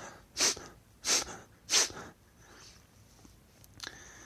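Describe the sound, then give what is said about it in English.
Rapid, forceful breath exhalations driven by sharp pulls of the abdomen, heard as three loud, sharp, noisy puffs in an even quick rhythm, followed by much fainter breath noise. “Use your abdomen to control the breath, so down near the belly button, and you simply pull the navel to expel the air and then relax it to inhale. So it kind of sounds like this.”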